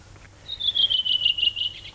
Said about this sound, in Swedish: Ja, så sitter den där en rödvingetrast och sjunger energiskt, frenetiskt. Sjunger och sjunger och sjunger.